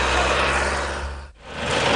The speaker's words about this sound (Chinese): 旋耕机马力全开，不到半小时的时间就将一亩多的农田耕完。